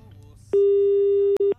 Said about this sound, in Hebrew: צלצול אחרון